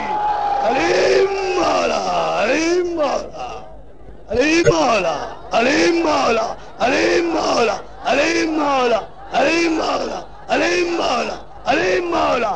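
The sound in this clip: A crowd at a religious gathering chants the Nara-e-Haidri slogan honouring Ali. Many voices shout loudly in unison, in repeated rhythmic bursts separated by brief pauses.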